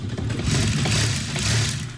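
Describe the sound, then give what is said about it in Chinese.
A sewing machine stitching together pieces of fabric cut from recycled trousers for a charity tote bag, giving a loud, continuous mechanical whirr without pauses. “把回收裤子剪成一块块布料，再用缝纫机拼接起来。”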